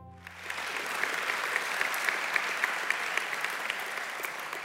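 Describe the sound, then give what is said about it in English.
Audience applause welcomes a speaker to the stage at a church gospel gathering. Steady, dense clapping rises quickly in the first moment and then holds at an even, full level with no voices heard. “So I want you to put your hands together and welcome our friend John Wheeler to the stage.”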